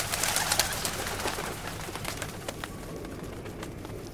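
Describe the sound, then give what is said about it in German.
Pigeons coo repeatedly in soft, low calls over a busy, noisy background scattered with brief sharp clicks. No voices are heard. “Gut, dass es immer noch Tauben gibt, die nicht vor den Bomben und den Granaten geflohen sind.”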